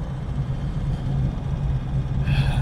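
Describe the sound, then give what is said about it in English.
Steady low rumble of a truck being driven at an early-morning start, a continuous engine drone without distinct events. “It's 5:30 and I've just jumped in the truck and I'm heading”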